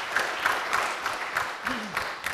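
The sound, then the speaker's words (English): Audience applause: light, fairly quiet clapping with regularly spaced accents and a short vocal sound near the end. “She's not here, but let's give her a round of applause.”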